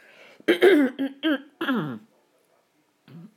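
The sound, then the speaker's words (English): A person clearing their throat: a few rough, partly voiced rasping bursts in quick succession, then a pause and one shorter, quieter clearing sound. “excuse me with all my throat clearing”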